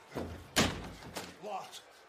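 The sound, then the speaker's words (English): A door is shut and locked with one loud, sharp thud, followed by a few smaller knocks and bumps. Voices talk over the sounds. “All right, I locked the door.”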